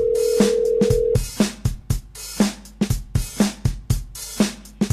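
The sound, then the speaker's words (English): A telephone rings unanswered on a call. A steady low ring tone holds for about a second, then gives way to a rapid series of sharp, evenly repeated clicks. “see he won't even answer his phone now.”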